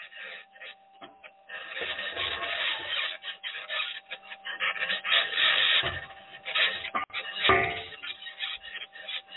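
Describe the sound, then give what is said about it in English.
A rock grinds and scrapes against the aluminum wheel of a vehicle as it drives. Irregular raspy bursts swell and fade in loudness over a faint, steady tone, with no voices. “That's a rock hitting the wheel.”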